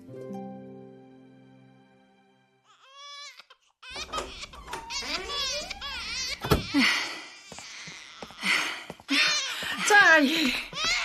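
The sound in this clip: A hungry baby wailing at a nursery at feeding time: loud, repeated cries that swoop up and down in pitch, after a brief stretch of quieter voices.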